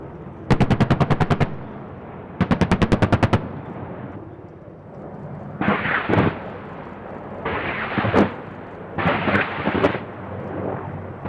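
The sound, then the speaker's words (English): Circling Apache helicopters open fire, first with two rapid bursts of gunfire, then several heavy, rumbling rocket blasts that boom irregularly one after another. “Now the circling Apaches get their turn, first with their guns, then their rockets.”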